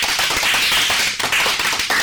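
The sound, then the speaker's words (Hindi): Children clapping hard, a loud, dense burst of hand claps that breaks off for a moment midway and then picks up again. “हम बातें शुरू करें उससे पहले जोरदार तालियां हो जाए।”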